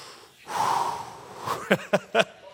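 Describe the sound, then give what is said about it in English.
A deep breath drawn in as a long, rushing inhale of about a second, followed by three short breathy puffs, heard alone without talk. “Deep breath.”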